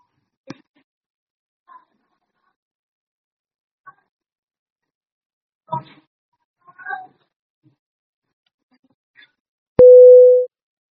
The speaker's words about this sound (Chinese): 所以呢，我们现在还得再重新挂掉，然后再重新让他再接一遍。 好， 挂了啊。